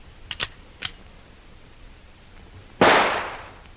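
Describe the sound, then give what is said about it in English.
A single rifle shot fired as a warning cracks out loudly after a few faint clicks, its sharp report trailing off in a decaying rushing tail. “Here is the rifle, Hannah. Let me have it. This will be a little warning for them.”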